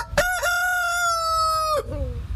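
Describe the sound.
An old rooster crows a single long cock-a-doodle-doo, loud and rich in harmonics, opening with short rising notes, holding a steady strained tone, then dropping to a lower falling tail at the end.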